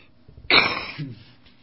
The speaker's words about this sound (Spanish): Lo siento, un poco de tos.